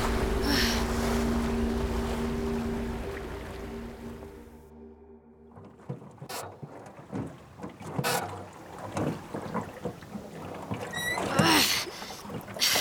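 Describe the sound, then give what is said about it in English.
A rowboat is rowed across open water, with irregular oar splashes and knocks following a stretch of steady, wind-like rushing noise. “keep rowing. We're almost there.”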